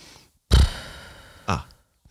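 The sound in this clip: A voice imitates a new, horse-like snore: a loud breathy snort with the lips blowing open on the exhale, then a second, shorter snort, with silence between and after.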